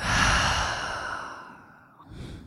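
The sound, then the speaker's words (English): Deep exhale during a guided breathing exercise: a long, loud breathy rush that slowly fades, then a brief softer breath at the end. “Okay, inhale, fill all the way up. And let go.”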